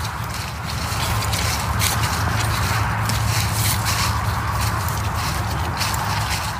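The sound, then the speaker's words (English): Footsteps on a winter hike in Sawyer, Michigan: a steady run of many steps over constant outdoor background noise. “It's a gorgeous day here in Sawyer, Michigan, and I'm on a hike. I'd like to take you on the hike with me just for a minute.”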